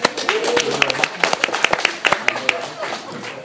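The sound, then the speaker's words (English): Audience applause at a Father's Day talk: many sharp, uneven claps at moderate loudness, with voices over them throughout. “You made it here. Give yourselves a hand. Yay!”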